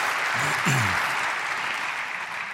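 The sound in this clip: Audience applause welcomes a speaker to the pulpit at a church service: dense, steady clapping throughout, with a man's voice briefly over it near the start.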